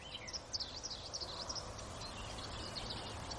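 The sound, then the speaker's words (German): Birds chirp outdoors on a windy day, giving quick high calls in short bursts, strongest early on, over a constant rush of wind noise. “Also es ist ein bisschen windig, aber ich hoffe, man kann trotzdem den Vogelgeräuschen lauschen.”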